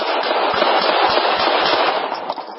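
A rapid series of gunshots plays from a video in which a police officer fires at close range at a seated man. The shots come as many crackling bursts over dense, muffled, tinny noise, with a brief pause near the end.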